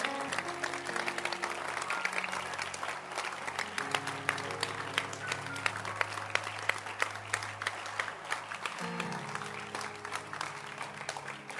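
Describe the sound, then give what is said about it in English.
An audience claps at a church service, a steady, fairly loud wash of many hands with sustained low musical tones underneath that shift a couple of times. “Let's clap our hands for those who are online.”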